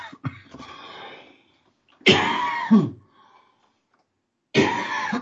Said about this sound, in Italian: mi scuso per la tosse